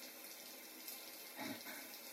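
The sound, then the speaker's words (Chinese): Running water flows while someone bathes, heard as a faint, steady hiss with a couple of slight swells in level. “妈知道你正在洗澡。”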